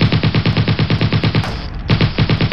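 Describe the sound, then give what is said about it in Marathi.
An automatic machine gun fires indiscriminately from behind a huge tree, loud rapid shots in a fast, even rhythm, pausing briefly before the burst starts again. “एका प्रचंड वृक्षाआड दडलेल्या दहशतवाद्याने automatic machine gun मधून अंदाधुंद गोळीबार केला.”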